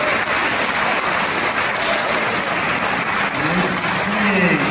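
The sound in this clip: Applause from an audience breaks out after a remark in a debate: dense, loud, continuous clapping that holds steady for several seconds.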